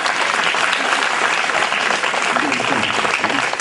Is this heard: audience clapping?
yes